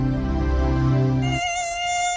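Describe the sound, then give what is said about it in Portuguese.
An Aedes aegypti mosquito buzzes as a steady harmonic drone that switches abruptly to a thinner, higher-pitched whine partway through, with no voices. “Aedes aegypti. Combata esse mosquito.”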